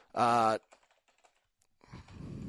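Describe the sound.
Typing on a computer keyboard: faint, scattered key clicks fall between a brief voiced sound at the start and talking that follows.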